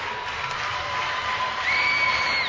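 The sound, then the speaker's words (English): A Notre Dame Catholic school crowd cheers before a game against Galen Catholic, a steady, dense roar of many voices with a sustained high whistle-like tone appearing near the end. “You can hear the Notre Dame crowd off to our right, Galen Catholic off to our left.”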